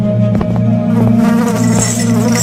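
Flies buzz in a swarm over chain-chafed wounds on shackled legs in a jail, a loud, steady droning hum with shifting overlapping tones and no voices.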